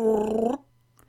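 A Wookiee growls a question: one loud, rough, voiced growl lasting about half a second that stops abruptly, leaving near silence.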